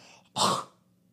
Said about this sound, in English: when I went to cough again, I breathed in, so it made me do that really weird noise